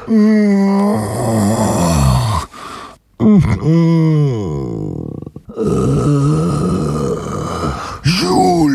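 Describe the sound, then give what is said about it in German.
Long, drawn-out, pitiful groaning moans: several wavering voiced phrases with sliding, bending pitch, separated by brief gaps. They are loud and wordless, like a pained human voice. “Es klang wie ein Stöhnen, ein Ächzen, langgezogen und auch ein bisschen mitleiderregend.”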